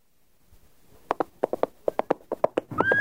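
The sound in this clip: Horse hooves clip-clopping in a quick, uneven rhythm of many sharp, hollow knocks after a near-silent start, the taps growing closer together toward the end.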